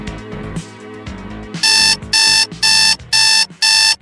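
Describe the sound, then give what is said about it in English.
An alarm clock rings as a wake-up call, cutting in after a stretch of music with five rapid, bright, loud ringing bursts in an even rhythm while the music continues underneath. “You know what that sound is? That's your wake-up call.”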